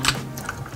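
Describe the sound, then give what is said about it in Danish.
Faint clicking of keys on a computer keyboard as a woman plays the computer game Blitz Royale at a gaming weekend, a short run of quick, light keystrokes. “Det, du kan høre her, det er lyden af et tastatur.”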